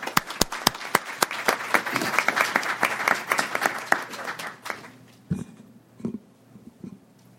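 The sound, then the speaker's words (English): Applause greets the South African ambassador to the United States as he is welcomed to speak: crisp, sharp claps that gather into steady clapping, then thin out and die away by about five seconds, leaving a few low thumps. “Please help me welcome South African Ambassador Wele Ntlapo.”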